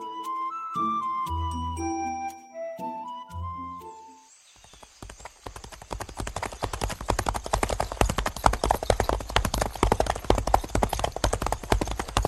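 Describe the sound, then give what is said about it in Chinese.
Horses galloping along a road: after a short melodic music passage, rapid, dense hoofbeats start. They clatter on steadily, thick and fast, to the end. “展昭和白玉堂骑马跟着小五一路往前跑，跑出几十里路”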